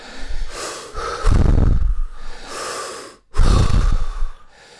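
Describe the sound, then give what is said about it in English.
Deep breaths are drawn in and pushed out through the mouth as a breathing exercise: loud, airy rushes alternating inhale and exhale, a few full cycles with a brief catch between them. “Let's do 10 mouth breaths, all the way in, all the way out.”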